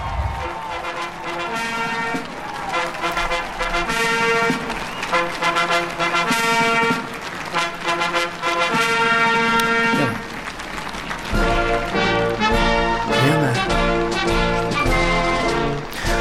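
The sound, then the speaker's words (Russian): Band plays the presidential march at Joe Biden's inauguration: a full, loud ensemble of brass and drums sounding continuously in a stately rhythm, without pause. “сейчас э, играют уже это президентский марш”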